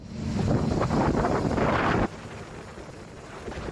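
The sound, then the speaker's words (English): Cyclone Mal's winds thrash Nundi, Fiji, at 11 p.m. on a Tuesday, roaring in a heavy, rushing gust. After about two seconds the roar drops abruptly to a lower, steadier whoosh. “It's the sound of Cyclone Mal at 11 p.m. on Tuesday thrashing Nundi”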